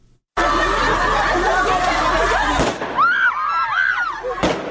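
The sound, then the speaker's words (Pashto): Gunfire from Taliban forces and shouting by protesting women in the streets of Kabul: loud, dense crowd noise cut by a few sharp shots, with high-pitched women's cries rising and falling between the bangs. “دا د اعتراض کوونکو مرمنو شور او د طالب ځواکونو د ډزو غږونه دي چې نن یو ور بیا د کابل د شارینو له کوڅو واوریدل شول.”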